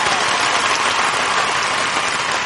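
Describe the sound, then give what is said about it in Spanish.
Sustained, dense applause from an audience at a live music show, a steady wash of clapping that stays loud and even for the whole stretch. “Ustedes no dejan de aplaudir y nosotros no dejamos de cantar hasta que les quiten lo que pagaron.”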